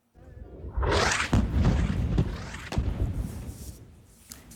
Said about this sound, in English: This is the moment an attack targeted a desalination plant in the Sheikh Radwan neighbourhood. A mosque was also hit.